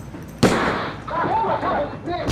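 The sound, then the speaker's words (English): A single loud gunshot blast goes off inside a small convenience store during a robbery. The sharp crack is followed by continuous noise and voices talking. “As the thug hurdles the counter, the gun discharges. The blast is deafening in the little store.”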